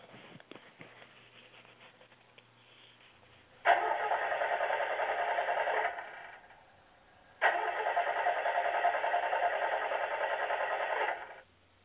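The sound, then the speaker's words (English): A car engine cranking in two separate bursts of steady, whirring starter noise, the second longer than the first, after a few faint clicks at the start. “I bet you've heard that sound before. If you have a vehicle, you have heard that sound. I know I have. It can be both alarming and a pretty penny to fix.”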